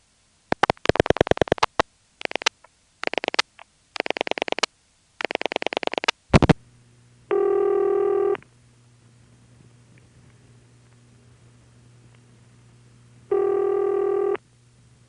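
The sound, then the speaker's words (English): Telephone pulse dialing on a step-by-step switch line: several bursts of rapid, sharp clicks with quiet gaps between them. Two separate steady, buzzy tones follow, each lasting about a second, with a low hum on the line between them. “with this you have dead silence while you're dialing the number, but you can clearly hear the pulsing being used to communicate to the switch being called, which in this case is a step-by-step.”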